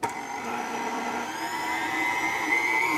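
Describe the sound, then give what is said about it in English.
Flour, baking powder and salt being mixed together, heard as a steady, even motor whir with no pauses and no voices. “And then 1 teaspoon of baking powder and 2 teaspoons of salt. And now I'll mix these together. Lots of throwing in and mixing.”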